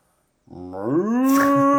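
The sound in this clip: A man imitates a cow's moo with his voice: one loud, drawn-out lowing call that starts low, rises in pitch and then holds steady as a strong, rich tone until the end.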